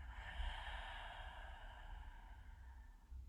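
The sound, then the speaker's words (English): A slow, deep breath in and out closes a short guided breathing and awareness session. The breath is soft and airy, sitting faintly beneath a sustained, gentle tonal drone. “And last one here, just for good fortune, breathe it in and breathe it out.”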